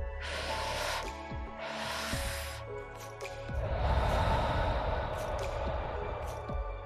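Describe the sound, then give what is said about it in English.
Two quick, sharp breaths drawn in through the nose, then one long, slow, airy exhale lasting about three seconds, evenly loud throughout. “Take two quick breaths through the nose and let it out in one long, slow breath, like this.”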